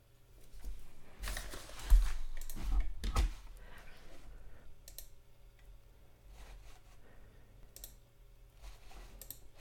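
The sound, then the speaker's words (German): Clicks from pressing a computer's power button: a cluster of sharp taps early on, then sparse faint clicks over a low steady hum. “Ich drück mal auf Power.”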